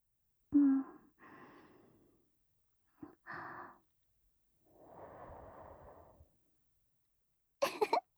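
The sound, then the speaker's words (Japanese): Soft puffs of breath blown onto someone's eyelashes: several faint airy bursts separated by pauses, one a longer drawn-out exhale, with no talk. “ごめんね。ふーってしたら、まつげピロピロってなるかなって思って。”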